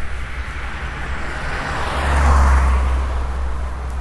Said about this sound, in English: can you tell which way that car was? Was that front to back or back to front? It's front to back.